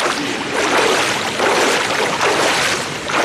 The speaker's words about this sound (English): Over by the pool's edge, one of Randolph's students takes a deep breath before swimming toward her.